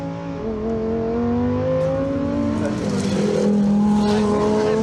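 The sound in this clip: A race car engine roaring on a road that is normally open to traffic, a loud continuous drone whose pitch shifts up and down as the revs change.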